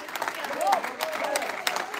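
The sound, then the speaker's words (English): Church audience clapping and stomping during a morning service, a dense, uneven patter of hands and feet that runs throughout, with voices calling out over it. “I need somebody to shout, stomp your feet, raise your hands, clap your hand, do something this morning to let the enemy know.”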